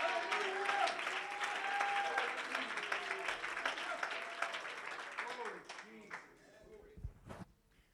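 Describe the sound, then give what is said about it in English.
A church audience claps their hands, a dense, steady patter of many hands that goes on for several seconds under voices and then thins out toward the end. “would you clap your hands to the Lord in this place?”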